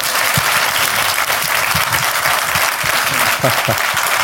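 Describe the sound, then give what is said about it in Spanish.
An audience applauds with dense, continuous clapping that stays loud and even from start to finish, with no distinct pauses. “Un aplauso para la mamá de Antonio.”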